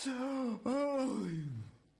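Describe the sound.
A human voice imitates a sleepy yawn as a two-part groaning exhale. The pitch holds, breaks briefly, then sags steadily lower and fades out over about two seconds.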